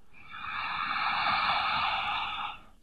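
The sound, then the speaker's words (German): A single long, deep breath of air, soft and hissing, rising smoothly, holding steady for about two seconds, then fading out. “Tiefes Einatmen und Ausatmen.”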